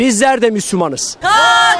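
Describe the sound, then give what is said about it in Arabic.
Protesters at a demonstration in Turkey supporting Gaza chant slogans, loud shouted voices in rhythmic bursts, with a short pause near the middle before another sustained shout. “الغضب الشعبي هنا في تركيا يعبر عنه المتظاهرون عبر هتافات مطالبة بوقف العدوان عن غزة”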